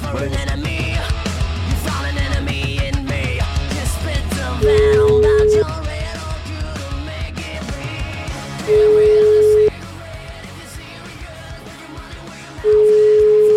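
Telephone tones sound while a call is being placed again: three long, steady, mid-pitched beeps, evenly spaced and each lasting about a second, rising clearly above continuous background music.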